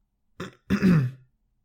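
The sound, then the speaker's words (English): A throat being cleared in two rough bursts, a brief one followed by a longer, deeper rasp, heard alone in silence. “raised his paw and cleared his throat.”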